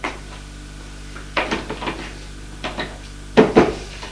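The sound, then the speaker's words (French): Rattling knocks from a locked wall cupboard door as someone tries to pull it open, heard in a few short clustered bursts of wooden clatter separated by quiet pauses, the last bursts the loudest. “Elle n'arrive pas à ouvrir le placard. Il n'y a pas de clé dessus.”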